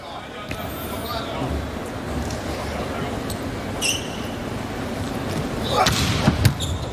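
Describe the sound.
Sharp ball impacts during a volleyball match as Wang Bin serves. A few distinct thuds stand out over constant crowd noise, with a voice talking throughout.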